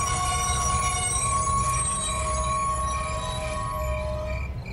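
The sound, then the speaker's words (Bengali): A steam train slows and brakes to a stop. A steady, piercing high squeal rides over a low, continuous rumble of the wheels throughout. “আগেরটার মতন পরে ট্রেনটাও ধোঁয়া উড়িয়ে একইভাবে এলো, কিন্তু জানলার কাছে এসে সেটার গতিবেগ একেবারে ধীর হয়ে গেল, আর তারপর সজোরে ব্রেক কষে থেমে গেল।”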